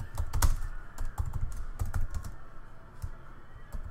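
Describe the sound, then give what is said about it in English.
Keys clacking on a computer keyboard in an uneven run of taps, with denser, louder clusters early and sparser strokes toward the end. “I'm gonna type left bracket.”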